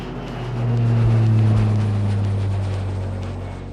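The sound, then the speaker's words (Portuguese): Private jet engines roar during takeoff as a sound effect: a heavy, low rumble that swells after the first half second, holds loud, then eases slightly, with no voices. “Retome a cadeira para a posição inicial, verifique se a mesinha à sua frente está devidamente presa e aperte os cintos, pois esse jatinho vai decolar.”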